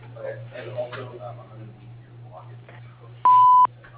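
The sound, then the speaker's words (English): A single loud, steady voicemail beep of under half a second signals the start of message recording. It follows a recorded greeting voice over a constant low hum. “please dial #0 for the operator right now or leave a message at the tone.”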